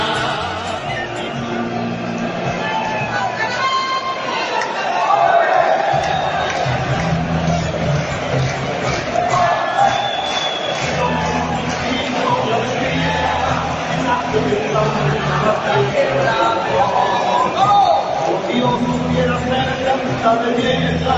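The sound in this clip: Football fans at Euro 2016 chanting in support of Spain: a dense, sustained crowd chorus with scattered yells and shouts, loud and continuous throughout.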